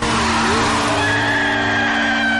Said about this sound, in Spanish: Los dos circulan sin casco, con sus motos en paralelo y acelerando cada vez más.